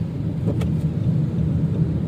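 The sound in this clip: Car driving on a road, heard from the driver's seat: a steady, low engine and road rumble with no pauses or talk.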